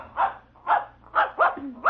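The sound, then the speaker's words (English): A puppy dog barks five times in a steady, evenly spaced series of sharp, mid-pitched yaps, with no talk around them. “I'm going to introduce you to my puppy dog, Mr. Blister”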